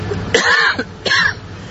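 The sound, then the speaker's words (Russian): Two harsh, loud coughs separated by a brief pause, each a throaty burst with nothing else around them. “Я начал кашлять”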